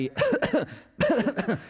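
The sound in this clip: An audience member coughs twice during a live talk, each a short, throaty, voiced burst with a brief gap between them.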